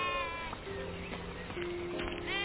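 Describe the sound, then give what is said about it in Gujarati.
Sheep bleating in a flock kept by shepherds at night: several wavering, nasal bleats rise above a steady murmur of animal noise, one near the start and another toward the end. “એ સમયે ઘેટા પાળકો રાત્રે પોતાના ઘેટાઓને સાચવતા હતા।”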